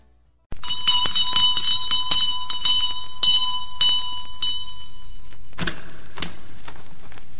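A bell rung to summon a servant, sounding as many quick, bright strikes in rapid succession for several seconds, followed by a brief duller noise and then fading quiet.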